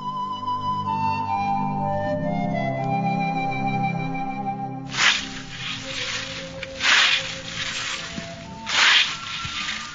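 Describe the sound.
A scythe cuts corn during harvest at Tregevis Farm, St. Martin: music plays first, then a few broad, swishing strokes sweep through the stalks at an uneven rhythm.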